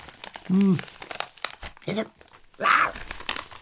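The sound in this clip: Paper crinkling and rustling as someone rummages through an envelope, soft irregular crackles broken by two brief voiced sounds.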